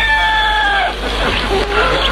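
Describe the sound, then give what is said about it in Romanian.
Rooster crowing: one drawn-out harmonic call that dips in pitch as it ends, followed by rougher, noisier sounds. “Când ajunge cucoșul la casa moșneagului, se oprește la poartă și începe a cânta.”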